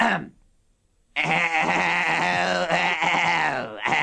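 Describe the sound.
A person imitates a goat bleating after a brief silence. The voice makes one long, loud, quavering bleat that breaks briefly near the end and starts again.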